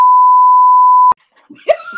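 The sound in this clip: A censor beep over a spoken name: one steady, loud, pure electronic tone lasting about a second, cutting off abruptly before a brief voice follows.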